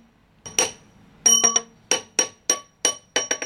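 Quarried stone tapped by a craftsman sorting it to test its soundness for cracks or gaps between strata: many sharp, ringing clinks in irregular bursts, some grouped in quick clusters, each decaying quickly.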